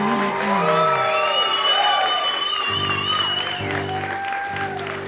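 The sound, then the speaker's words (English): Crowd cheering and applauding at a Fourth of July event: a loud, unbroken wash of clapping with whoops, shouts and high voices rising above it for the whole stretch. “People clamoring.”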